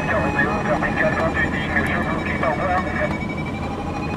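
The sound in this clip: A 180-horsepower light aircraft engine roars during takeoff, a loud, steady droning that stays constant throughout while a voice speaks over it.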